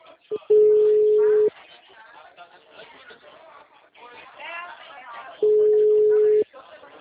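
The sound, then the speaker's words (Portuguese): A telephone busy tone follows a dropped call: two loud, steady beeps of about one second each, separated by a stretch of people talking. “a ligação caiu”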